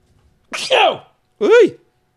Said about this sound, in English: That was a sneeze.